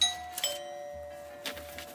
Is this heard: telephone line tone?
no